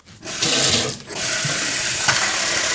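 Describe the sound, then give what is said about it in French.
Tap water runs steadily to fill a filter jug so its filter cartridge can be soaked, a continuous bright rushing stream with one brief dip early on. “Je fais couler l'eau Je pense que ça va suffire. J'immerge le filtre.”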